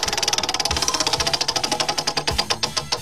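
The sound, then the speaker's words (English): A prize wheel spun by hand gives a rapid, steady run of loud clicks that gradually spread apart as the wheel slows, with no voices over it. “Whose turn is it to spin the wheel? I don't know. Let's spin it together, all right?”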